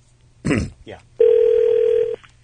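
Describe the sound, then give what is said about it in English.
A telephone ring sounds during a prank call to a radio station's programming line: one steady, mid-pitched electronic tone held for about a second before it cuts off cleanly. “So we decided to crank call Dave, but Dave doesn't pick up because he didn't recognize the number, so he gets routed to the programming department here”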